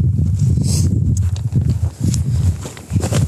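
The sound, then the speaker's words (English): Footsteps fall on a hiking trail as a walker heads back up toward a glacier-fed stream. A few heavy, uneven thuds with a soft crunch land at an irregular walking pace. “currently continuing to walk back. So, even though I never got to see the glacier water, I am coming back up to the stream.”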